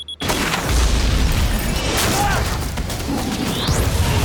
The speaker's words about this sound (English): As he fires at her, she slams the hatch shut and detonates the bomb.